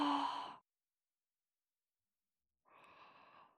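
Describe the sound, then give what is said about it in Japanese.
A person breathes in and out slowly during a guided relaxation exercise: a soft, sighing breath fades out, about two seconds of silence follow, then a gentler, airy breath rises and trails off. No one speaks. “吸って吐いて、”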